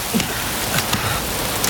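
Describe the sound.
Rain falls on a Friday night as a dense, even hiss of drops. A few faint patters rise briefly above the steady wash.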